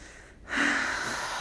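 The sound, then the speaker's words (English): A long, deep breath drawn in through the nose or mouth, steady and airy after a short quiet pause, with no talking. “I invite you to take it just a nice deep breath.”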